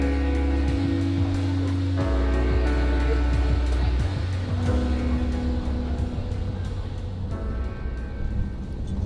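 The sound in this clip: Steady engine and road rumble from a car driving just before turning onto Oakland Drive, a low constant drone with faint tonal hum layered on top and no clear speech.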